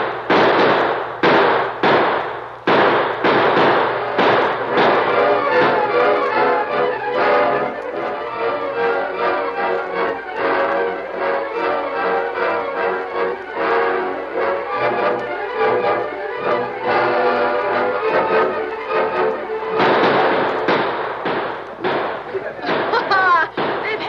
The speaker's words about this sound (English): Every man to a window. Now, open fire.